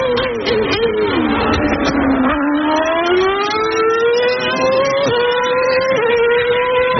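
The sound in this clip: Formula 1 race cars at a Grand Prix, the Canadian race in Montreal, give a loud, continuous, high-pitched engine whine that dips in pitch, then climbs steadily as the cars accelerate, with no voices.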